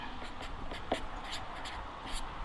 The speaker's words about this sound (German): Das schreibe ich jetzt mal hier oben, Klammern, hören und tun.